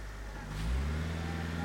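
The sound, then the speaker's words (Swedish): An ambulance drives off through snow, its engine a steady low hum that swells slightly partway through and then holds level, with no siren. “Där åker Antons pappa. Han vinkar till Anton genom ambulansens fönster.”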